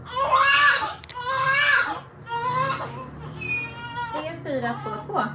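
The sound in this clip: A newborn baby cries just after birth in a run of loud, repeated wailing bursts, each a strained high-pitched cry with short breaths in between, growing more broken and whimpering toward the end.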